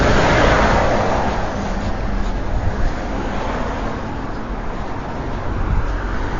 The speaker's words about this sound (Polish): Mijam rozpędzającą się ciężarówkę.